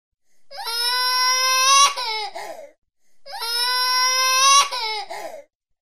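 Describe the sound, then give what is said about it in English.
A child crying in two sustained wailing bursts of about two seconds each, loud and tonal, each ending in a short broken sob before falling silent. “So that's ing, ing kind of cry. But it's interesting. It's pretty close. I could see the difference. I have no idea how to make the difference between the crying baby and a crying four-year-old boy.”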